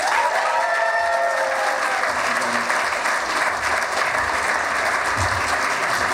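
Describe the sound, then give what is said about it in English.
A fan convention audience applauds a panel moderator as he is introduced: dense, continuous clapping from many people that holds at an even, loud level throughout, with a few cheers mixed in. “Please put those paws together for Lewis Perry.”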